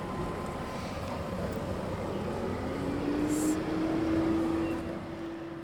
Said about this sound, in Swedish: Det är för många bilar. Många som chansar på att köra igenom. Och så kommer de emellanåt som nu till exempel i en sån hastighet.